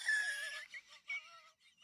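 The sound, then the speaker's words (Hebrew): A voice imitates a loud snore with a nasal, whinnying rasp, followed by a couple of shorter snorting bursts. “פתאום אני זוכר שהתעוררתי, מנחירה של עצמי. ככה.”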